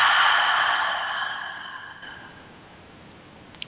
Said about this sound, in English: Breathe in and out.